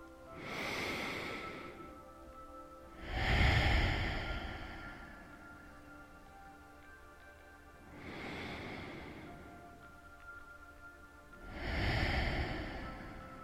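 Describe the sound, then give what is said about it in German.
Deep breaths drawn through the nose come as four soft, slow, airy swells, evenly spaced and separated by quiet pauses, with no talking. “Nimm noch zwei tiefe Atemzüge durch die Nase bis tief in den Bauch.”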